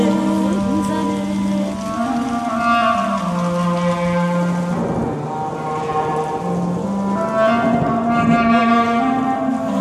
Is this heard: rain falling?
yes